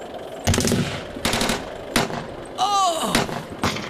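Machine-gun fire erupts in a tense scene where people crouch hidden under attack. Several sharp, loud bursts of rapid shots are separated by brief pauses, with thuds and rattling between them.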